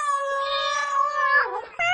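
A cat meows in one long, drawn-out, high and tonal cry, then a second meow starts abruptly just as the first ends.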